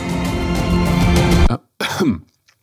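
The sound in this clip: Harsh, strained coughing and throat clearing after a bug flew into someone's mouth: a long rasping bout, a brief pause, then one shorter cough burst.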